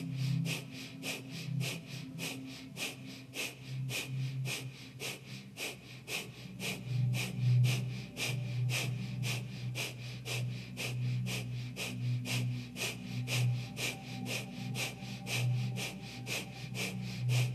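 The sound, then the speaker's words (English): Breath of fire breathing during a guided breathing exercise: rapid, rhythmic, forceful breaths driven by the navel pumping in and out, repeating many times at an even, quick pace at moderate volume. “Keep the breath out and out, just that navel in and out, like breath of fire.”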